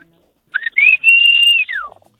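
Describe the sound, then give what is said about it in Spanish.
A person whistles a street signal call used to summon neighbourhood kids to play football: a few short, sharp, high notes, then a long held whistle that ends in a falling glide, loud and clear with no talk. “Entonces ya nos poníamos en la calle y empezamos a chiflar.”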